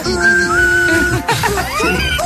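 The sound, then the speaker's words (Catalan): A person whistles in an angry manner: a sustained, steady note first, then after a short break a quick run of rising, wavering tones. “Com es xiula enfadat?”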